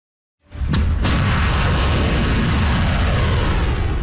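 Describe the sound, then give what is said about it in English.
A volley of Iranian ballistic missiles launches: silence gives way to an abrupt, loud roar, a couple of sharp cracks near the start, and then a sustained, heavy rumbling rush that continues to the end. “That is the sound of a volley of Iranian ballistic missiles.”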